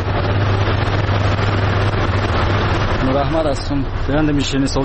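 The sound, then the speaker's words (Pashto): A sweets-making machine runs in a confectionery workshop, giving a loud, steady low drone and rumble with broad mechanical noise. A man's voice begins talking over it in the final seconds. “د نوموړي خبرې د شیرینې جوړولو د ماشین په غږ پیلېږي.”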